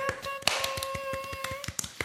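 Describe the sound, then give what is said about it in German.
Hand clapping: many quick, even claps in a steady rhythm over a faint sustained tone, with no voices. “Hört, hört! Handgeklapper!”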